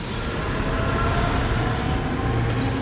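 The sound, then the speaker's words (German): An ICE high-speed train running on rails makes a steady, loud, continuous rumble, with faint squealing wheel tones over the roar and no voices. “Der kleine ICE hatte seinen Freund schnell eingeholt und kurze Zeit später kamen die beiden am ersten Orientierungspunkt an.”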